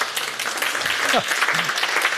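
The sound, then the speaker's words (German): Applause at the close of a summer orchestral concert, a dense, even wash of many hands clapping at steady loudness for about two seconds, with a brief voice rising faintly over it. “Vielen Dank, der Applaus für Sie.”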